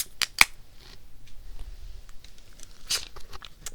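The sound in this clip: Beer cans are cracked open for a toast, with two sharp metallic snaps in quick succession, then faint fizzing and a later hissing spray.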